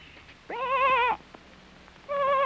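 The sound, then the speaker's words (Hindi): Sheep bleating from a sheep caught in thorny bushes in a forest: two wavering, harmonic bleats, the first about half a second long and the second cut off at the end, with quiet background between them. “तब गडरिये ने पहचाना कि ये उसी की भेड़ की आवाज है।”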